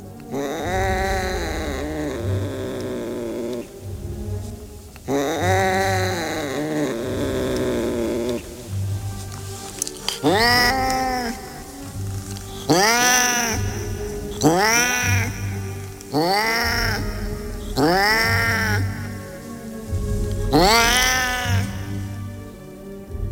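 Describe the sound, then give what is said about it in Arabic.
A cat meows and caterwauls at night, with long, wavering yowls followed by a run of shorter, repeated meows. The calls are loud and rise and fall in pitch, with no talk over them. “بدأت أسمع صوت قطة تاني وأنا نايم، قلت عادي ما القطة عندها يعني، لكن الصوت ده ما كانش صوت القطة خالص اللي أنا كنت أعرفه.”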